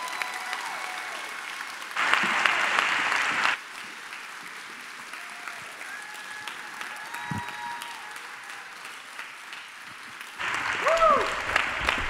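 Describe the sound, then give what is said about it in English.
A standing audience applauds to welcome guests onto a stage at a service. The clapping runs throughout and swells into two louder bursts, one early and one near the end. “Would you please stand to your feet and put your hands together and welcome my wife, Lisa, and Ryan and Lauren Tannehill to the stage.”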